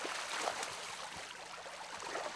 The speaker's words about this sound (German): Fischwirt André Albers öffnet den Abfluss von Teich 31. Das Wasser muss raus.